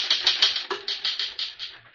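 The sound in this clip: Typewriter keys clack in a rapid, even run of many crisp strikes. The sharp, bright taps are fairly faint and carry no voices.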